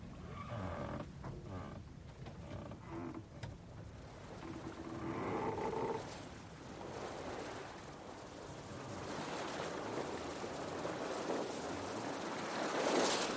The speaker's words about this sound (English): This is what I hope to remember. It's the sea.